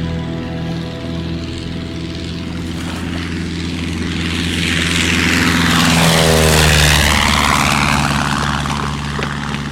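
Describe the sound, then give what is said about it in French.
A propeller airplane departs for South America, its engines droning steadily and swelling louder toward the middle before easing off, with a falling pitch sweep as it passes. “C'est par l'avion pour l'Amérique du Sud qui s'en va là-bas, n'est-ce pas? Si, c'est lui.”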